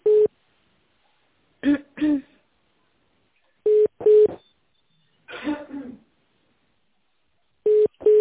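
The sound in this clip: Tones on a phone line while a call is being transferred: several short beeps, some in quick pairs, with brief muffled voice-like fragments between them.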